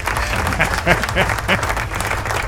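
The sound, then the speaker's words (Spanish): Applause sound effect: a dense, steady crowd clapping that holds evenly throughout the short stretch, with some talk audible underneath. “Aplausos, ¿dónde están los aplausos?”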